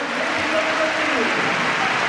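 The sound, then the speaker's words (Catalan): A stadium crowd at a Madrid football match gives steady applause as a Canadian player is substituted off. The even wash of clapping and crowd noise stays constant throughout. “Aplaudiments de moment pel canadenc.”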